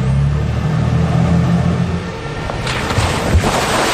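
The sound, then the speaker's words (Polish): An amphibious bus driving through Hamburg gives a steady, low engine rumble with a constant drone and a few heavier bumps near the end; no voices are heard. “Jeżdżący po Hamburgu autobus amfibia to obecnie najnowocześniejszy pojazd tego typu.”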